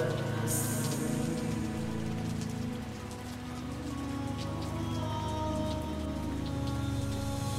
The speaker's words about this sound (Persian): امروز تو این سرما، تو این بارون